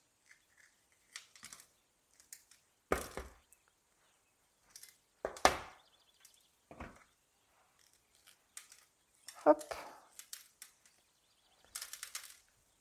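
A knife cuts a bell pepper in half lengthwise on a cutting board, and the seeds are removed. A few sharp, crisp crunches stand out among scattered faint taps and clicks, with no talking.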